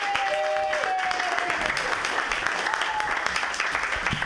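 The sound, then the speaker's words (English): Applause from a comedy show audience welcoming a comedian to the stage: a dense, steady wash of many hands clapping that holds an even, fairly loud level throughout. “Everybody put your hands together. It's Adam Strawbridge.”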